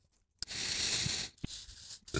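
Pen scratching on paper as a quiz answer is written by hand: a few long, dry, rasping strokes separated by short pauses, moderately loud and alone.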